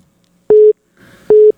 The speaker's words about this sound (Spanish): Ahí está ya sonando el teléfono rápidamente para el Capi Ramón Valverde.